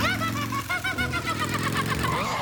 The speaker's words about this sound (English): Hey, that's my motorcycle.